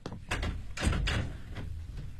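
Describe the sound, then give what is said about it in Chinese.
A corridor window sliding open, a faint sequence of soft knocks and a scraping slide over a quiet background. “哎，你别急别动啊，我把走廊的窗子打开一点。”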